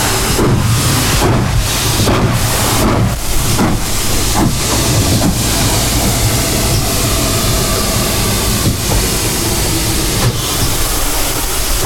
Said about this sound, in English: So we have one of the locomotives coming into the platform, into the station now.